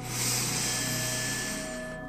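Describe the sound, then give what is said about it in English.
A deep breath exhaled during a guided breathing exercise, heard as a soft, steady airy rush lasting about two seconds and tapering slightly at the end, faint and alone. “now take a deep breath in and exhale.”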